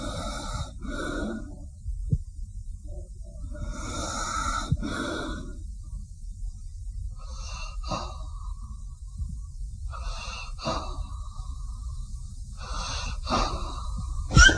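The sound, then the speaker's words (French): Breathing of sleeping hospital patients: slow, wheezy breaths with snorting edges in a regular series roughly every three seconds, fairly quiet over a low, steady hum. “il n'y en a pas un qui respire pareil, quoi. C'est chaque malade, même quand il dort, ils sont différenciés par leur manière de respirer.”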